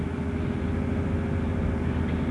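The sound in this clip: A car engine runs steadily while inside the car, a continuous low drone with an even, unchanging level and no talk over it.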